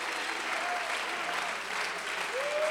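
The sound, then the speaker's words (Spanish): Applause from an audience during a bilingual Spanish-English church worship service: dense, steady clapping that fills the whole stretch at an even loudness, with no pause and no voices standing out. “Un fuerte aplauso al Señor.”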